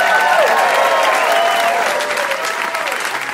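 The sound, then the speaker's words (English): Live audience applause for the guests: dense, sustained clapping that stays loud and even across the whole stretch, with a slight easing toward the end. “And can we get one more hand here for all our guests,”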